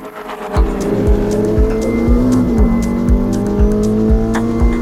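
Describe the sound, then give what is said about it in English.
A 1949 car engine with a direct drive torque converter in place of a conventional transmission runs steadily. It makes a low, throaty rumble with a regular pulsing beat and a faint higher whine, and no voices are heard. “Was the sound of a direct drive torque converter in place of a conventional transmission setup, which was unheard of in 1949.”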